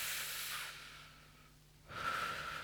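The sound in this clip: Slow, soft breathing during a guided breathing exercise, with an airy hiss that swells, fades into a lull, and swells again. The breaths are faint and heard alone, without voices.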